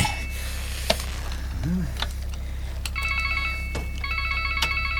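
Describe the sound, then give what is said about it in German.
A mobile phone rings with an electronic ringtone: a bright, repeating melodic pattern of stacked tones sounds in two bursts near the end, after a few scattered clicks and knocks. “Nanu, wer mag denn das sein? Hey, das ist Derek. Gib mir das Handy”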